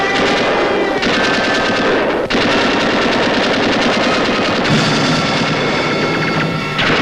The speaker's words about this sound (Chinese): 方连长见状，急忙命令我军向敌人射击。